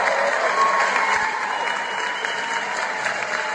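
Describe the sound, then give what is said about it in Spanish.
Steady applause from an audience fills the whole stretch, a dense and continuous patter of many clapping hands at an even, fairly loud level, with no voices standing out. “Bájale un poquito a los aplausos.”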